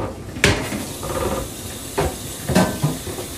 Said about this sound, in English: And you always want to point the chicken away from you, especially since you don't want that oil to pop all over you.